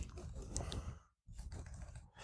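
Fingers tap numbers into a keypad to work out a multiplication, a quick run of faint, soft clicks that pauses briefly midway and then picks up again.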